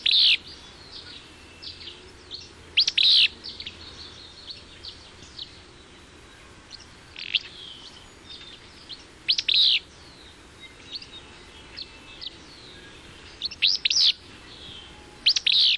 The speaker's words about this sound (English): Be aware, however, that all willow flycatcher subspecies sing during spring migration as well as on the breeding grounds.